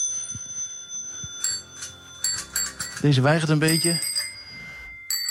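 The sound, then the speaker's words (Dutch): Bicycle bells on old and new model bicycles in a bike shop ring as a series of bright dings and rattling trills, with a person speaking briefly between rings. “Kijk eens aan met links en rechts fietsen. Oude modellen, nieuwe modellen. En dat klinkt zo.”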